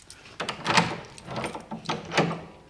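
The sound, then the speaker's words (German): A door being unlocked and opened, heard as a series of dull clunks, clicks and rattles of the lock and handle, with a few louder knocks amid low background noise. “Schließen Sie auf, rasch.”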